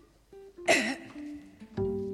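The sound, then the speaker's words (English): A singer clears their throat during a recording session: a short, rough, raspy burst, then a second brief one, with faint sustained tones in the background. “clear your throat. Clear your throat”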